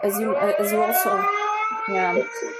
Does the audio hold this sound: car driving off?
no

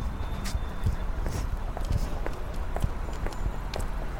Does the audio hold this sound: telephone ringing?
no

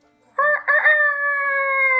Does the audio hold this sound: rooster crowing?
yes

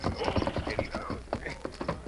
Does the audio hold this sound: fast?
no

